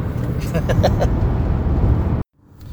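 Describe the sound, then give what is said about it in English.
A car driving with a broken exhaust makes a loud, steady, raspy low engine drone that cuts off abruptly near the end. “That sound is my fucking car. Driving with probably a broken exhaust.”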